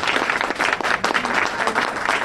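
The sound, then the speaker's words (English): Audience applause welcoming a guest who owns a bookstore: dense, steady clapping from a crowd, loud and continuous for about two seconds with no voices. “Give him a nice round of applause.”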